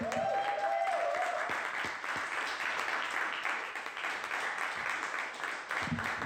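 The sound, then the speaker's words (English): Audience applause for the next comic at a comedy show, a dense, steady wash of clapping that holds at an even level for several seconds. “Well, then make some noise for Gus Young.”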